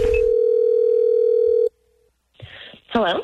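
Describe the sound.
A telephone dial tone opens a prank phone call: a loud, steady tone holds for about 1.7 seconds, cuts off abruptly, and after a brief quiet gap a voice is heard speaking.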